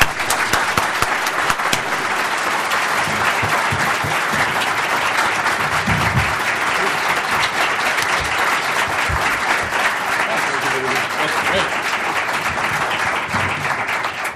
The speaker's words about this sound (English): Ladies and gentlemen, please join me in giving a Texas welcome to Professors John Mearsheimer and Stephen Walt.